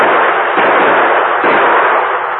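Gunfire from two guns shooting at a tossed tin can: a dense, steady roar of many rapid shots blurring into one continuous burst, loud and unbroken throughout.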